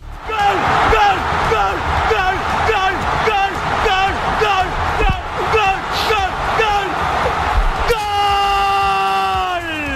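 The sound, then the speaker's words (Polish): Panamanian football fans cheer and yell after their team's decisive goal in World Cup qualifying. A loud crowd keeps shouting in a steady rhythmic chant throughout. “Panamczycy tak się cieszyli po zdobyciu decydującego gola.”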